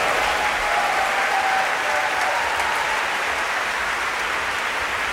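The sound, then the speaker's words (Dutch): An audience applauds after a concert performance of a Vivaldi concerto featuring a sopranino recorder soloist, with dense, steady clapping that stays loud throughout. “En applaus zeker natuurlijk voor Michael Hel.”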